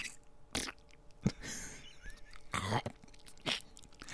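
Crunchy chewing and biting on Steak-umm sliced steak comes in a few short, quiet bursts separated by near-silence, with no talk.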